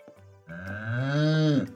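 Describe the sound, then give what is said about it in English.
A cow moos on a ranch, one drawn-out lowing call that starts low and swells into a fuller, harmonically rich bellow before cutting off, fairly soft and alone. “Oh, will you look at all of those cows? You must be near Yodel Ranch.”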